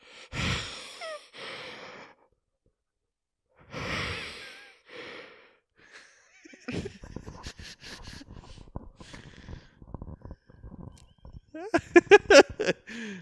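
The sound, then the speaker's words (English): A person takes loud, breathy gasps: one sharp intake at the start and another after a short pause. A busy stretch of muffled clicks and scattered voice sounds follows. “Take a breath.”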